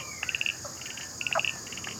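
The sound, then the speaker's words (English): Frogs calling in a chorus, pobblebonk and striped marsh frog, with two bursts of rapid, high, clicking pulses over a steady high insect-like drone, faint overall with no talk. “Oh, there's some other frogs calling now. Oh, I can hear a bobble bonk, bonk, bonk. And a striped marsh frog too.”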